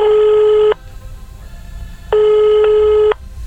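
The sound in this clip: A telephone calling out: two long, steady buzzing ring tones separated by a silent gap, over a low rumbling background.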